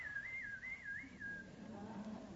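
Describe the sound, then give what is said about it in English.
A person whistles a short, high, wavering tune. A few quick rise-and-fall notes ring out clearly on their own, then the tune trails off partway through. “she wanted to show me that she could whistle too”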